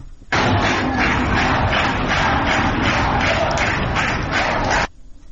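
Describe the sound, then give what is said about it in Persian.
University of Guilan students clap together in unison in protest at the campus technical faculty. A loud, steady rhythmic beat of many hands runs throughout and stops abruptly near the end. “همه با همدیگه یک صدا دست می زدن و جوری که می خواستن صدای اعتراضشون رو به مسئولان دانشگاه برسونن. صداشون رو بشنویم.”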